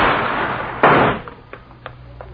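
A single loud, sharp gunshot cracks through a steady hiss in an alley in a radio drama. A short burst of noise follows and quickly dies away, leaving near quiet with a few faint ticks.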